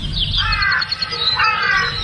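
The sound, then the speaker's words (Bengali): Crow cawing: two loud, hoarse caws, each a short harsh call, separated by a brief pause. “এমন সময় প্রথম কাক ডাকল।”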